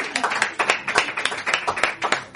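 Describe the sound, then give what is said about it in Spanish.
Audience applause made of crisp, distinct claps in quick, slightly uneven succession, each hand strike sharp and separate, fairly loud throughout. “¡Un aplauso! ¡Qué maravilla!”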